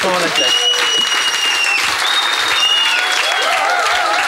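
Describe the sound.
Audience applause at a live radio recording in Valence, a loud and continuous burst of clapping with voices and cheering over it throughout.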